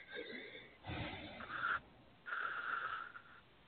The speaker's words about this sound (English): Let's breathe. Take one breath. Breathe with me.